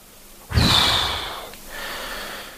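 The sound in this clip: A deep breath drawn in sharply with a strong airy hiss, then a second, softer breath follows, both heard alone without talk.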